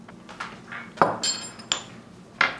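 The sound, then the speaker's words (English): Fennel seeds are pounded in a marble mortar and pestle, giving a few sharp, irregular clinking strikes of stone on stone, some louder than others, between quieter grinding taps. “I'm not gonna completely grind them, but I'm gonna pound them a little bit in a mortar pestle just to release their oils.”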